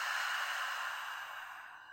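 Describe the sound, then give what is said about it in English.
One long, breathy exhale through an open mouth, a cleansing breath in a guided breathing exercise. The soft, airy rush stays steady and then slowly fades over about two seconds. “Let's take three cleansing breaths here. Nice big inhale through your nose, fill up the body. Open the mouth, let that breath go.”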